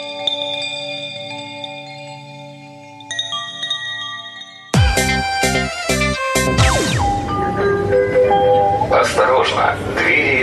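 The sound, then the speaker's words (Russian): Riding the Yekaterinburg metro: a train's steady rumble and electric whine, with chime-like tones that turn into louder, denser rolling noise midway as the car moves, voices present. “мы едем на следующую локацию, и мы не могли не протестировать такую важную часть города, как метро, потому что в Екатеринбурге одно есть.”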